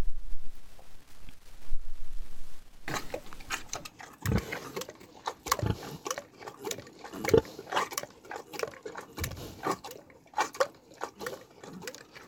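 Paavo the animal munches on bread, with many wet, crunchy bites and chomps in an uneven rhythm, some louder bursts standing out, after a quieter opening stretch.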